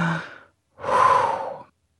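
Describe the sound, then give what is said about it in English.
A deep breath: a short airy breath sound followed after a brief pause by a longer, smooth breathy exhale of about a second, alone with no talking. “Tip number three, take a deep breath.”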